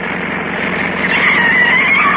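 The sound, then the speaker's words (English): A car engine roars steadily and loudly through a sharp turn, with a thin high whine in the second half. “A quick turn of the steering wheel to the right, and here we go.”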